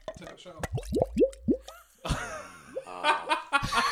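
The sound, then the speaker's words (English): Water poured quickly into a special jug makes a quick run of hollow, glugging plops that rise in pitch, followed by laughter and people talking. “Now, when you pour that water, because it's a very special jug, Could you point the mic towards your jug? It's a very satisfying noise. Pour it quick.”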